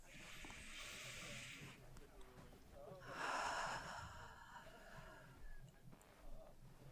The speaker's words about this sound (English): One more deep breath.